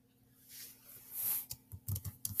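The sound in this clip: A few quick, faint clicks of keys being typed on a computer keyboard, a brief irregular burst of tapping that follows a soft rustle.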